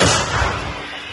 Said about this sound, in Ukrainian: Бійці продовжують бити по цілі, один за одним. Розвідники більше не коригують, то значить, все лягає у ціль. Готово! Постріл!